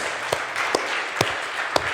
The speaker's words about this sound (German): Da darf mal ganz herzlich geklatscht werden.